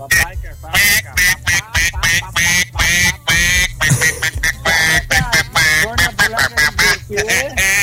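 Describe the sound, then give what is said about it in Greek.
Ducklings quack in many short, loud, rapid bursts with a choppy rhythm, mixed with voices throughout. “Τα παπάκια, Σταύρακα, τα παπάκια.”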